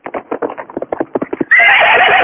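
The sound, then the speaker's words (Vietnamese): A horse runs with many quick, rhythmic hoofbeats, each a sharp thud, then a loud, sustained neigh takes over for the last second. “Đoạn chàng dục ngựa chạy về hướng nam.”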